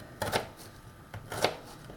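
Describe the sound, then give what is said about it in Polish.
A knife slices a peeled, rough-skinned vegetable into thin strips for a bogracz stew. A few soft, brief cutting sounds are heard, quiet and without talk. “W każdym razie obieram tak, żeby była obrana z tej swojej takiej szorstkiej pokrywy i kroję sobie na takie piórka”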